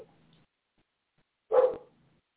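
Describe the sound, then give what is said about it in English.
A dog barks outside, a single short, moderately loud bark breaking an otherwise quiet stretch. “If you can hear my dog barking, he's outside. He's, you know, actually calling me to come out there with him.”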